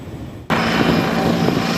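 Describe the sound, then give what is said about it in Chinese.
Several types of army brigade military helicopters taking off in turn: a sudden loud, steady roar of engine and rotor noise bursts in about a quarter of the way through and holds evenly to the end. “接到命令，各型直升机依次升空，乘战术编组飞赴预定空域。”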